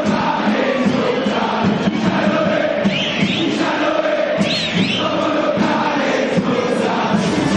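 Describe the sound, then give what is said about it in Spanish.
River Plate's football crowd roars inside the stadium, a dense, continuous wall of massed voices that holds at a steady, loud level throughout. “Impresionante el público de River, dejando sello acá en la tarde de debate.”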